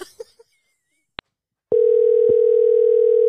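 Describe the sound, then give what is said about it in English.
Telephone dial tone heard while calling back: a few faint soft sounds and a single sharp click come first, then a loud, steady, unbroken mid-pitched tone starts and holds to the end, with one small click inside it. “I'm going to call her back.”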